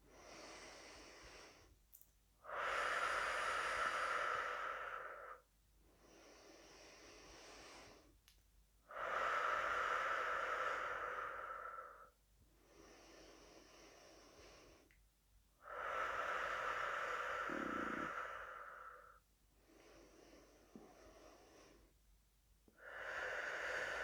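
Slow, deep breathing in and out during a guided breathing exercise. Long, loud breaths alternate with softer, quieter ones in a steady, unhurried rhythm, each lasting a few seconds, with no talking.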